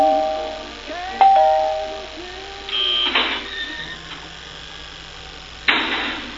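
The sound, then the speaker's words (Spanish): A doorbell rings once with a bright, tonal chime, followed by a couple of short noisy bursts and quiet background. “está sonando el timbre”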